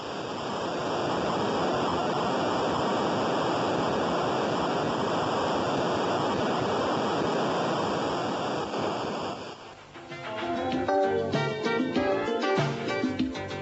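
Synthesized sea waves from the adventure video game Mind Shadow, a steady rushing hiss for about nine seconds, then a short electronic tune.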